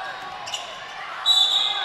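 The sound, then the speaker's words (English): A basketball being dribbled on the court during a game gives a few dull bounces beneath a commentator's play-by-play, with a brief brighter lift in the court noise near the end. “Moore still on the dribble.”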